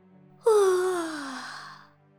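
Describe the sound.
One long voiced yawn opens abruptly, then slides steadily downward in pitch as it trails off, alone and fairly loud.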